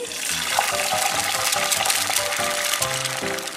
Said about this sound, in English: I sliced those potatoes so thin, you could practically see through them. Then I fried them to a crisp.